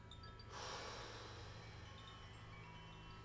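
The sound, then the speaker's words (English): A single faint breath drawn in through the nose, part of a slow paced breathing exercise, rising as a soft airy rush and then trailing off into quiet hiss. “Let's inhale through the nose for two counts. Exhale for four.”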